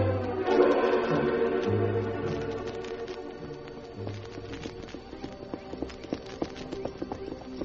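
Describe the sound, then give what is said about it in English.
The hooves of two horses clip-clop as their riders, a railroad survey crew working west of Cheyenne, ride slowly back to camp at the end of the day. The hoofbeats form a steady, fairly soft walking rhythm. “Two men of the Union Pacific Survey crew working west of Cheyenne toward the Indian settlement rode slowly back to camp at the end of a day's work.”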